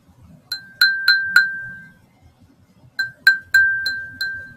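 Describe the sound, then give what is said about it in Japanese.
A cracked heat-resistant mini glass bowl with a vertical crack rings out in eight bright, clear clinks in two groups of four. Each tap leaves a sustained glassy tone that slowly fades. “あ、耐熱のガラスボールミニ割れてる。マジ？なんで割れんだこれ。”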